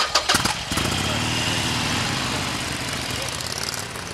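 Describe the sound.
A Harley-Davidson Roadster motorcycle starts on a downtown Milwaukee street before a test ride: a few quick cranking bursts, then the engine catches into a steady, loud, rough rumble that holds to the end.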